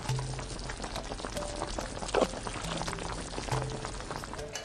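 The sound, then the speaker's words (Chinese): Scalding noodle broth being poured over chili bean oil seasoning and chopped scallions, a continuous bubbling, splashing pour with a brief louder burst partway through. “两勺豆瓣红油，配上其他佐料，撒上葱花，加入滚烫的面汤，红油豆瓣充分散发香气”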